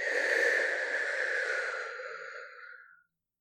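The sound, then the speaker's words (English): A long, slow exhale during a guided relaxation exercise: one steady, breathy rush of air that holds for about two seconds and then tapers off into silence. “With each breath, just let all of the stress flow away. Breathe in and out.”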